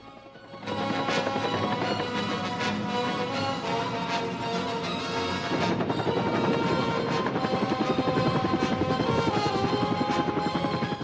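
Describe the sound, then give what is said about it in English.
Helicopter rotor chopping steadily and loudly while hovering above a camp before descending to land in a muddy clearing, a dense rapid thumping that continues without a break. “The chopper hovers high above the camp, then slowly starts to descend.”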